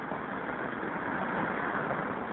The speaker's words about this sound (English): It's my favorite kind of payphone. It's like out in traffic, practically in traffic, right on the curb. Northern Boulevard and 41st Street.